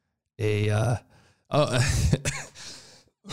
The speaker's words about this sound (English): excuse me. I don't have a cough button.